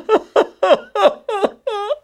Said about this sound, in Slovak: Počujete? Niekto tam dolu plače. Ako žalostne narieka.